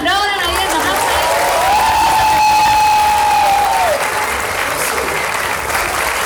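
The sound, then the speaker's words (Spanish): Loud audience applause with some cheering, a dense continuous clatter of clapping hands, while a voice or whistle-like tone holds a sustained pitch over it for a couple of seconds. “un aplauso”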